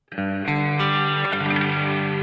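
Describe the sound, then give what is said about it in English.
Electric guitar chord ringing through a reverb effect with the reverb's tone control turned down for a darker sound. The loud, sustained chord has a few fresh attacks layered over the held notes. “Oh, so it's the tone of the reverb. Yeah, the got a lot itself. Darker.”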